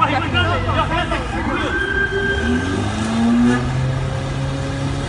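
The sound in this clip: A car driving fast, its engine revving and accelerating hard with sweeping rises in pitch, loud under people talking throughout.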